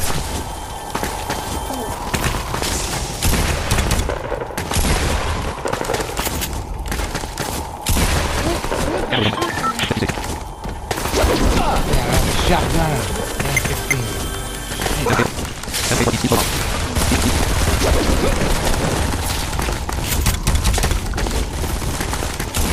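Shotgun gunfire in a video game: many sharp blasts and crashing impacts in irregular bursts, with brief pauses between volleys.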